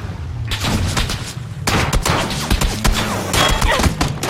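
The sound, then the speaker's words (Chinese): Rapid M16 rifle gunfire from a video game: dense bursts of sharp cracks and thuds in quick succession, loud throughout with brief gaps, no talk over it. “这 M16，一枪把我就爆头了。”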